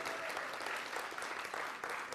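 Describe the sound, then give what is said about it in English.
An audience claps for a man asked to stand up, a faint, even patter of many hands that holds steady throughout. “You definitely don't need to clap him, really. You do not need to clap him, okay?”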